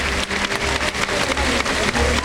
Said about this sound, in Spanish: Y ahí la agarra y la muestra al público, que le aplaude con fervor.